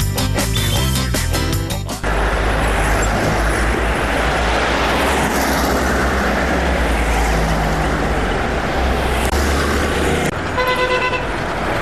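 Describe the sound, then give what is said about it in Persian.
Dense road traffic at a four-way intersection with traffic lights: a steady roar of engines and tires, with car horns honking at the start and again near the end. “د یوې څلور لارې د ترافیکي اشارو له فعالیته مو خبروو. پام وکړئ.”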